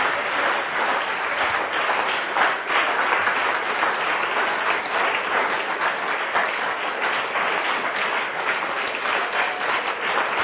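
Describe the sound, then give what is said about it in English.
Sustained applause from an audience at a night church service, many hands clapping in a dense, steady roar that stays loud and even for the whole stretch. “Give Jesus a marvelous round of applause.”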